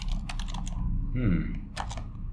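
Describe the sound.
Keyboard typing, quick light clicking keys tapped while someone writes out football score predictions, running under people talking.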